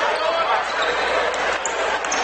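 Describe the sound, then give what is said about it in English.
A basketball is dribbled during a high school game between Fort Loramie and Mechanicsburg, the bounces buried in a dense, loud, continuous wash of noise. “Fort Loramie dribbles up top of the circle.”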